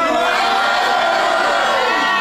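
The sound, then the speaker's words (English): An audience shouts and cheers a greeting all at once. The mix of whoops and yells is loud and sustained without a break. “Why don't you guys all say hi to the literally listeners. Hundreds of listeners who will hear this podcast.”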